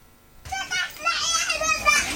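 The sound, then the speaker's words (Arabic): Children play in a small pool set up among tents in a displacement camp, their high voices calling and chattering almost continuously after a short quiet start. “هؤلاء الأطفال يسبحون في هذا المسبح، يلعبون في واحدة من الأفكار الجميلة الخاصة في هذه الفترة الصعبة.”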